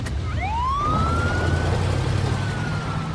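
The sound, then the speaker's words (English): A police squad car's siren wails as the car pulls away. The tone sweeps upward and then holds a long, high, steady note over a loud rumble of engine and traffic noise. “Eckhart pays up and gets in his squad car. Mike's car pulls up behind him. The red and blue lights flash atop Eckhart's vehicle as he pulls away.”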